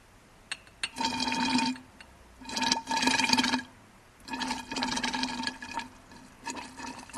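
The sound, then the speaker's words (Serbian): Ethanol poured onto sulfuric acid reacts with a faint fizzing, crackling hiss that swells in a few bursts separated by quieter gaps. “zvuk koji se čuje je u stvari posledica reakcije sumporne kiseline i etanola.”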